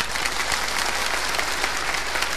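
Polite applause from an audience, a steady, even patter of many hands clapping at moderate loudness for a couple of seconds, with no talk over it.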